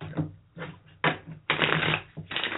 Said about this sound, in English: Sorry for the shuffling sound.